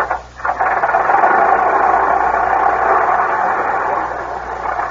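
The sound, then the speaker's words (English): Engine of a 1910 Stanley Steamer automobile running, heard as a steady, loud hissing mechanical churn with an even texture from start to finish after a brief dip at the start. “Hey, that's a fine-looking automobile, Monty. What kind is it? Oh, it's a late model. It's a 1910 Stanley steamer.”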